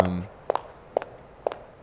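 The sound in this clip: Someone walking in heels makes a few sharp, clicking footsteps spaced about half a second apart. A brief moment of talk comes just before the steps.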